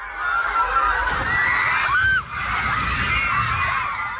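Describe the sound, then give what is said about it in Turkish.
Metal shade canopy collapsing during an earthquake while students are present: continuous loud screaming and shouting from a crowd of young people, with a sharp bang-like crash early on. “Öğrenciler yere çökmüş depremin bitmesini beklerken gölgelik olarak yapılan metal yapı çöktü.”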